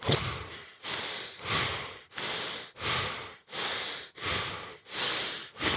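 Fast, deep belly breathing from a breathing exercise, with the belly pushed out on each exhale. Loud, rough breaths follow one another in a steady, rapid in-and-out rhythm with short gaps between them.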